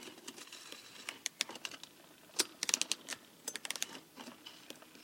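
A Campagnolo front bicycle shifter clicks while changing gears, giving many sharp, faint, irregular ticks and clicks in loose clusters, with a denser burst in the middle.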